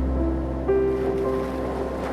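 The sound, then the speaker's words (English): Ocean surf washes in a steady, continuous rumble, with a soft sustained tone held faintly above the rolling water. “The sleepy ocean calls you tonight”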